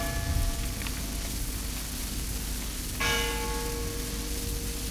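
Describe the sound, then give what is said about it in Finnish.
Funeral bells toll with long ringing strikes, one soft stroke early and a louder one midway whose tone lingers, all over a steady rain-like hiss. “Kun hautajaiskellojen ääni sitten kantautui mökkiin”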